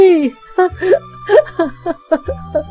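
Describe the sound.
A mother wails and sobs in anguish. Her voice breaks into short, high, wavering cries that come in uneven bursts over a low sustained musical tone.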